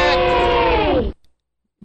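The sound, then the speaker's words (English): Sound effect of a crowd running away: many voices cry out together, loud and falling in pitch, then cut off abruptly, followed by silence. “How about this one? That's everybody running away. That's no good.”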